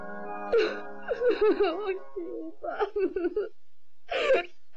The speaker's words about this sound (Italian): Nausicaa, su, non piangere.